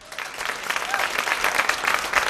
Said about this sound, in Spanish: Ahora sí que te necesitamos un súper aplauso para esta primera vez de Lidia en el autobús 37 de la MT.